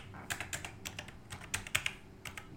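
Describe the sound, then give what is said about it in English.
Typing on a computer keyboard while entering text for a paperback book cover design: many quick, irregular keystroke clicks in uneven bursts, crisp and fairly light, with no talking. “So I'm going to type in for Mystic.”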